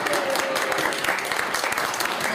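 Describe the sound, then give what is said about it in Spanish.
Audience applause at a gathering about the publisher Editorial Vid: many people clapping together in a thick, continuous patter at a steady, fairly loud level throughout. “Chicos, no, antes, por favor, aplausos por favor para su buena venta.”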